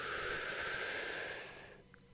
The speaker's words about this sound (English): take the deepest breath you can and hold it for 1 second or two.